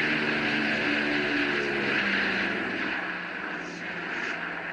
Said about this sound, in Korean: 멀리 공중에서 웅장한 프로펠러 소리가 들리기 시작했습니다.